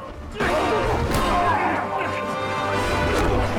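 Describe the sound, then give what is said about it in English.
Loud crashing and thwacking blows as men beat off attackers in a brawl, a dense and steady run of impacts and scuffling mixed with voices. “They beat them and clear the bodies away.”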